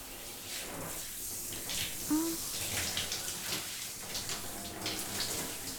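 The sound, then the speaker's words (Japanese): Warm running water rinsing a light styling product out of a client's hair during a salon shampoo: a steady, soft hiss and splash that runs throughout with small gurgling variations. “今日つけていたのは軽めのスタイリング剤なので、お湯でしっかり流せば大丈夫そうです。”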